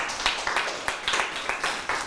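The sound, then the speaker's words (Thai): Children clap for a classmate in a lesson, a steady run of many crisp claps in an even, brisk rhythm at moderate loudness. “เยี่ยมเลยนะครับปรบมือให้เพื่อนด้วยครับ”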